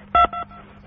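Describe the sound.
Telephone keypad tones dialing an extension on an office automated phone menu: two short electronic beeps in quick succession, the first slightly longer and louder, over a faint low hum.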